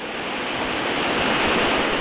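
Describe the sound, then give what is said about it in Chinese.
Tidal water and waves surge at Tashan Dam in a steady, dense roar of rushing water, continuous and fairly loud with no distinct breaks. “每天受到不同的天气以及河道的影响，在不同的时间段、不同的地方，我们能看到潮水丰富多彩、变化多样的潮景。那今天我们在塔山坝看到的场景就是这样。”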